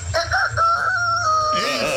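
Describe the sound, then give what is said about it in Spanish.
A person imitates a rooster crowing with a loud, warbling vocal call that wavers in pitch and lasts about two seconds. “Talento oculto es imitar como gallo.”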